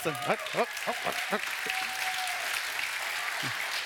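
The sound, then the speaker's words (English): Church audience clapping, a steady spread of applause that runs the whole way, with a voice talking over it at the start and briefly near the end. “you're jumping the gun. You're jumping the gun. All right. So I'm going to have you clap again.”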